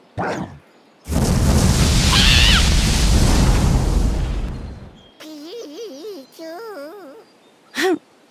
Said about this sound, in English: Let me show you how real Pokemon fight. Charizard, Fire Blast.